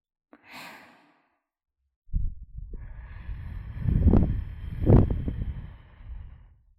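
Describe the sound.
A breath is blown out during a breathing exercise. First comes a short, soft breath, then a long, rushing, gusty blow with a low rumble that swells twice near its end.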